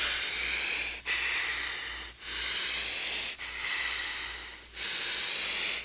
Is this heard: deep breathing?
yes